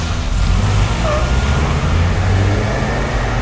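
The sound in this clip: Several vehicles, including a Land Rover, drive off together, a loud, steady, broad rumble of engines and road noise that holds throughout without clear breaks.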